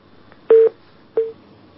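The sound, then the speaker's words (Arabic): Two short electronic telephone tones mark a disconnected call, the first longer and louder, the second briefer and softer, over near silence. “انقطع اتصال.”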